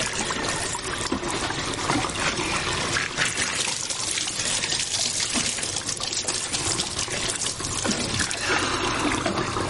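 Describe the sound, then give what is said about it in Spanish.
Water is poured from bowls over a person's bowed head to rinse the hair, a continuous, fairly loud splashing and trickling stream with no voices. “vierte varios cuencos de agua sobre su cabeza”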